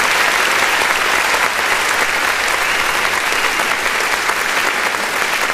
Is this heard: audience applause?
yes